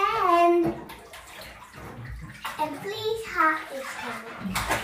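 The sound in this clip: Child splashing in bath water while washing red lipstick off herself, with the child's voice vocalizing over the watery splashes throughout.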